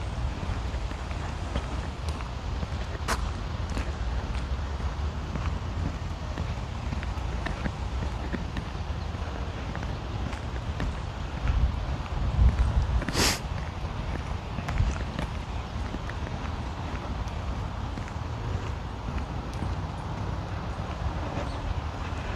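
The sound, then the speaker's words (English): Footsteps of a high school cross country team running, a faint continuous patter of many feet mixed with low outdoor rumble and wind, broken by a couple of brief sharp clicks. “Runners. High school cross country team, I guess.”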